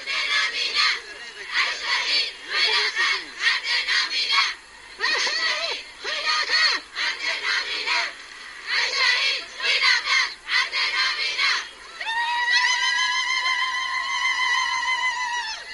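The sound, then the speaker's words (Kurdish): Protesters chant slogans outside the French consulate: many voices in rhythmic bursts broken by short pauses, steady and loud throughout. “لەبەردەم کونسوڵخانەی فەرەنسا دەستکرا بە هوتافچێشان”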